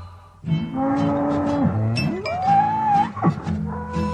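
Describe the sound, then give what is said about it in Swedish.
Drawn-out cow moos from a cow and calf on a country road. A few long, low, sustained calls with a steady tonal quality. “Ute på landet går kossan och kalven.”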